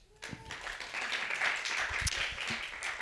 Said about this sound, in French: je vous demande d'applaudir